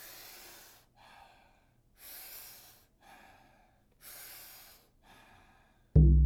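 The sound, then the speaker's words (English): Rapid mouth breathing from a power-breathing technique: three big, loud inhales, each followed by a softer, shorter exhale in a steady rhythm, then an abrupt thump at the end. “taking about 40 powerful breaths into the body through the mouth. And when we exhale, it's a soft, relaxing exhale in between. So big breath in, soft exhale. We do it together, and it sounds like this.”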